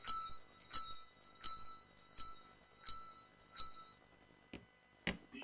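A bell rung to summon a servant: six bright, ringing metallic strikes in a steady rhythm, followed by a couple of softer knocks.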